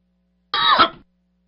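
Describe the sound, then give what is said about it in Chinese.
A person gives a single short, rough cough close to an open microphone, a harsh throat-clearing burst that fades quickly into silence. “刚才稍微咳了一下啊，那个麦克风没有把它关好，抱歉啊”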